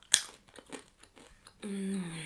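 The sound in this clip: Crisp crunching of dough-coated peanuts, an imitation Knickknacks-style snack, as a few sharp bites break the shells, followed by a steady voiced sound.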